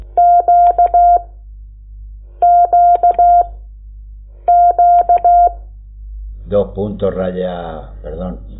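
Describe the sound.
Morse code tones for the letter Q, dash-dash-dot-dash, sounded as a steady mid-pitched beep pattern repeated three times with short pauses between, followed by a person talking.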